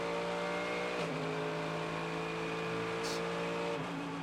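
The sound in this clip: A sports car at full throttle during qualifying on the Long Beach street circuit gives a steady, high-revving engine drone rich in harmonics, with two abrupt pitch shifts at gear changes.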